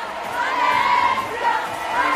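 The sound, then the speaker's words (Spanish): A crowd in Madrid cheers and applauds Barça star Alexia, a sustained, loud roar of many voices rising and swelling briefly. “La estrella del Barça, aplaudida como no debe ser de otra forma en Madrid.”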